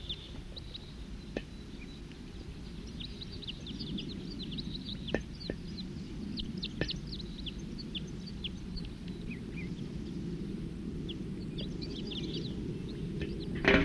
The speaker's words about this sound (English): They're recording wild birds. Song.